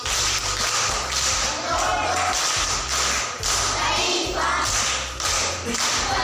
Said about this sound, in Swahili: Makofi kwa mjomba.